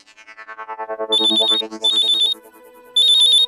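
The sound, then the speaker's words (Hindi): Electronic ringing of an outgoing phone call on a local line: three high, warbling bursts separated by short gaps, preceded by a run of rapid, lower pulsing tones. “हाँ घंटी जा रही है”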